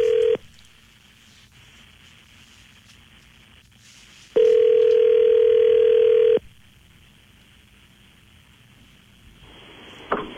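An outgoing telephone call rings: two long, steady single-pitched ring tones, each lasting about two seconds, are separated by a quiet stretch of faint line hiss, with a brief click near the end.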